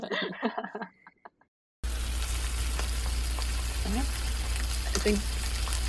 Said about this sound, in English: Are you cooking something on a pan? It is on a pan.